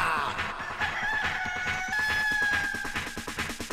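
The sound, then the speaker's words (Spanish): A rooster crowing, a long drawn-out harmonic call with a steady tone, heard alone at moderate loudness. “¡Dale, gallinero! ¡Que llegó el gallo que manda!”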